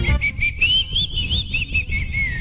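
A person whistles like a little bird: a high, wavering, trilling tone that holds almost continuously, rising and dipping slightly throughout.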